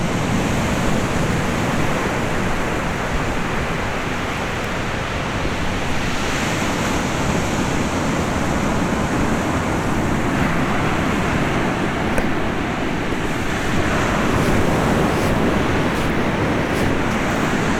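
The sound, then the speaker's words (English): Ocean waves wash steadily onto an Atlantic beach, a continuous loud roar of surf with no pauses and no voices. “you can hear it in the background. Because you know that finally, after getting on 70 East and then to 12, finally I reached a place where I could actually see and hear and feel the Atlantic Ocean.”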